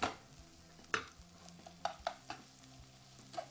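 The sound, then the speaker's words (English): Mayonnaise being stirred into a hot pan turned down to low heat, a few scraping, clicking strokes of the utensil over a faint continuous sizzle, with no talk. “Mayonnaise is going to go in. We're going to say about a cup of mayonnaise. We're going to get this mixed around in here.”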